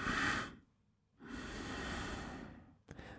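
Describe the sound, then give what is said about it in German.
Slow, audible breathing paced to walking, one step in and two steps out: a short breath, a pause, then a steady breath about twice as long, and the start of another breath at the end, with no talk. “ich atme über einen Schritt ein und über zwei aus, also ein ein, zwei aus”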